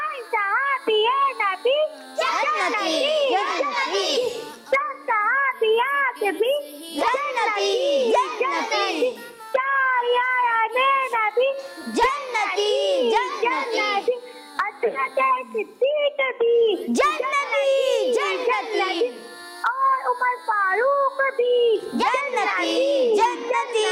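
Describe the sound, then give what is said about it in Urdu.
A young girl calling in from Karachi to a children's religious TV channel chants slogans in a bright voice, in rhythmic phrases of a couple of seconds each separated by short pauses. “میں آج نعرے لگاؤں گی”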